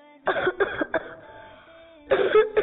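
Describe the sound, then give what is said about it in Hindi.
A child coughing: a quick run of harsh coughs, a short pause, then another rough burst of coughing. “आपको तो खांसी हो रही है”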